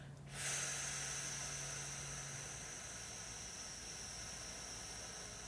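A slow, long exhale during a breathing exercise: a steady, airy hiss of breath that starts abruptly and holds evenly for about five seconds, soft and alone.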